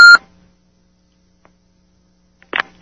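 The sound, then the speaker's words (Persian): Beeping on a telephone line: a brief, bright electronic beep at the start, near silence, then a second short, noisier burst about two and a half seconds later. “شما که احتمالاً برای این صدایی که بوق بوق میکنه کاری نمیتونید بکنید.”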